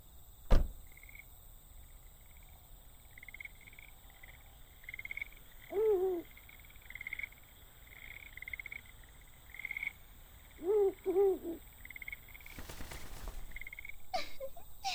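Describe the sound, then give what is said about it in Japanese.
A bird calling at night, a few wavering, mid-low hooting calls, one around the middle and a doubled call later, faint over a quiet background with a thin high-pitched tone. “鳥の声くらいで何を驚いておる。”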